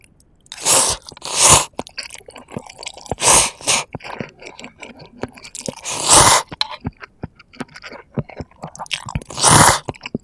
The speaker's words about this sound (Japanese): やばい、めっちゃ鼻水出しながら食べる。